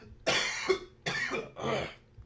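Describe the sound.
Coughing as if choking on something caught in the throat: a few harsh, raspy bursts with short pauses between them, loud and heard alone.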